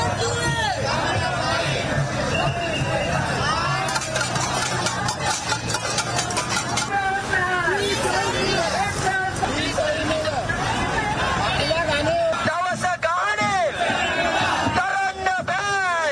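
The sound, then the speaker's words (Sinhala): A protest march in Borella against taxes and the rising cost of living makes a continuous babble of many voices. Road traffic rumbles underneath throughout. “ආණ්ඩුවේ බදු ප්‍රතිපත්තියට සහ ජීවන වියදම ඉහළ යාමට එරෙහි හිව ජන අරගල ව්‍යාපාරය සංවිධාන කළ විරෝධතා පාගමන බොරැල්ල කැම්බල්පිටිය අසලින් අද පස්වරුවේ ආරම්භ වුණා.”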